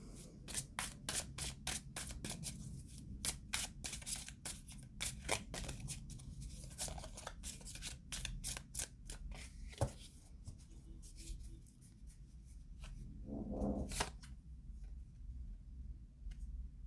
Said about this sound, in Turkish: Çok düşünce kart seçeceğim diyorum. Yine unutuyorum. Yok bundan çekmeyeceğim. Şuradan alayım.